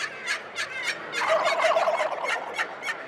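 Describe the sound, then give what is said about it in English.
Wild turkey gobbling at a wild turkey federation convention: rapid, rattling gobbles come in several short bursts and one longer, sustained run of calls in the middle, all fairly loud and without voices. “The wild turkey. And it's the Nashville sound the next few days. When the National Wild Turkey Federation conventions in your town, expect this sound.”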